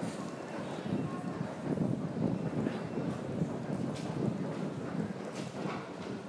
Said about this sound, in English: Very, very breezy.